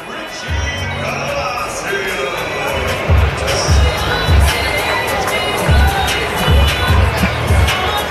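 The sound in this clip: Home crowd cheering at a Clippers minor-league baseball game: a steady roar of crowd noise with shouts and children's voices, punctuated by regular low thuds.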